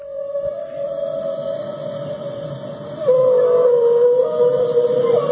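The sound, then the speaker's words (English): Whale vocalizations played as a sound effect: one long, sustained moaning tone that holds steady, dips slightly in pitch partway through and grows louder, continuing to the end. “The sound effects, the live sound effects. That's the sound of whales.”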